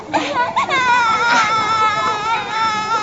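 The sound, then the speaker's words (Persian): A young girl cries after bleeding from the mouth, a high, tonal wail that holds loud and unbroken for about three seconds. “گریه نکن دیگه، گریه نکن.”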